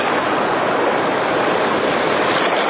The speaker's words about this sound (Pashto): هرې څپې ته یې په کرکه ګوري او خدای ته سوال کوي چې د سیند اوبه نورې زیاتې نه شي.